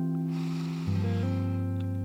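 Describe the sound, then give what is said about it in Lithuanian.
A deep inhale through the nose during a short morning breathing practice, a soft airy rush lasting about a second over steady, sustained music tones. “Giliai įkvėp per nosį.”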